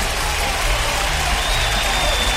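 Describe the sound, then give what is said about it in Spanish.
Applause rings out for a caller phoning into a radio show, a steady wash of dense clapping that holds evenly throughout, with a low hum running underneath. “De Molina, un aplauso para Molina, claro que sí.”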